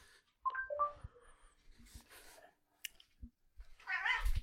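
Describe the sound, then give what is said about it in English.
A cat gives a brief, bright two-part meow, followed by scattered soft thumps, clicks and rustling. “Please, cat, get out of the way. I know you want to be on a podcast.”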